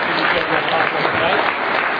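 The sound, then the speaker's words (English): Audience applause in a hall after an evening debate event, a dense, steady wash of clapping that holds at an even loudness throughout. “And again, a quick round of applause for Peter Youngren and for Dan Barker and Kyle”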